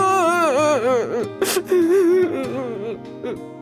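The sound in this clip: A young man crying, with loud, wavering wails and sobs that bend up and down in pitch, broken midway by a sharp, breathy gasp before the sobbing trails off more quietly.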